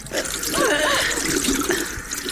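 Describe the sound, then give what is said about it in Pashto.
Water is poured from a container over a child's hands. It makes a steady, full splashing and gurgling that runs continuously, at an even level, for the whole stretch. “لاسونه دې ونیسه چې اوبه در واچوم”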